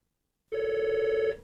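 A single telephone ring on a radio station's call-in contest line as a caller phones in: one steady electronic tone lasting under a second with a faint, even warble, heard alone without talk.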